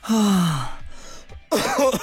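A person coughing and clearing the throat while catching their breath: two loud, rough voiced bursts with a short, quieter gap between them, the first sliding down in pitch like a groan.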